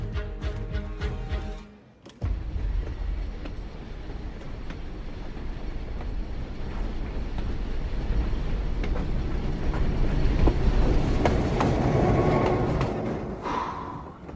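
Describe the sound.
A train runs on rails with a broad, rumbling roar and rhythmic clickety-clack of the wheels. It dips briefly near the start, then builds to a loud, sustained rolling noise.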